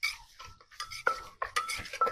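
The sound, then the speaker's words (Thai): Salted-egg papaya salad is pounded in a mortar, making faint, irregular knocks and clattering scrapes in an uneven rhythm, with no talking. “ก็จะตำให้เครื่องเข้ากัน”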